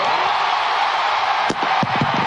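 A microphone is dropped and tossed toward a crowd, rock-and-roll style, landing near the end as a dull thud followed by a few short rattling knocks, all over a steady roar of crowd noise.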